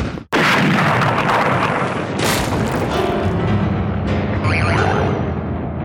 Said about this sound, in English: Give me that bazooka, half a wit! No! You can't fire a bazooka in the palace!